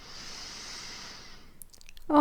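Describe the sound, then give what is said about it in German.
A slow, deep breath drawn in during a guided relaxation exercise: a long, soft, airy hiss that fades out, followed by a few faint mouth clicks as a voice begins. “Atme noch einmal tief ein.”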